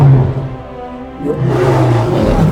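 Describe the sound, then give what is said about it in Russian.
An animated lion roars from a cliff above the savanna, a deep, loud, sustained roar that eases briefly and then swells again. “Муфаса поднимается на утес, и саванну оглушает львиный рык.”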